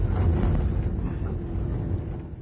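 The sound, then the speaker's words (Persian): A car engine sputters and stalls, giving a deep, uneven rumble that churns steadily and eases slightly toward the end. “ماشین خودش پت پت کرده خاموش شد.”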